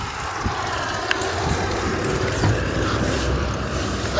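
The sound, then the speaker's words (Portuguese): Steady roar of busy street traffic with motorbikes and trucks, including a beer truck, forming a continuous broad rumble with no clear single pass and no talk. “Nossa, agora cheguei numa rua extremamente movimentada. Tem moto, tem caminhão de cerveja, tem caminhão de tudo.”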